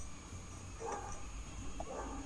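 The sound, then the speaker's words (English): Faint barking from an agitated dog going for a boy, a few short yelping barks standing out briefly against steady low background noise. “Oh, that doggy's going mad, isn't he? Yeah. That dog's barking at him, so he wants to go for that dog as well, doesn't he?”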